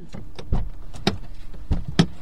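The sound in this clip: A veterinarian's covered truck bed is opened at a farm, giving several solid clunks and knocks of latches and panels, spaced unevenly over a couple of seconds with some lighter rattles between them.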